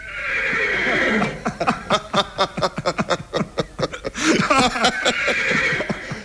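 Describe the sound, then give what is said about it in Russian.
A horse neighs loudly in two drawn-out whinnies. A run of short, rhythmic snorting bursts comes between them, and no one speaks. “Добрый конь! Хороший конь, я доволен.”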